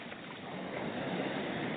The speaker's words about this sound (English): Sounds of the waves coming in to shore